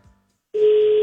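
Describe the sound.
A telephone call that goes unanswered: after a brief quiet moment a single steady, mid-pitched telephone tone starts and holds to the end.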